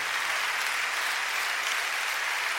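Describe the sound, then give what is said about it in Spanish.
An audience applauds during a church service with dense, continuous clapping that holds at an even, fairly loud level throughout. “dan un aplauso al Señor por esa presencia.”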